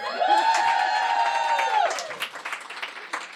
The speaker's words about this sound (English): So for our listeners, we are recording this in front of a packed live audience. Let them hear.